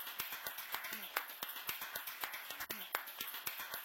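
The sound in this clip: Hand clapping for a performer, a quick, even run of claps at a steady beat, fairly faint, with a voice briefly heard among them.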